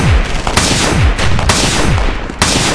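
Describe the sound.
Revolver gunfire in a shooter video game as the last rounds in the cylinder are fired: several loud shots at a steady pace over dense, continuous battle noise.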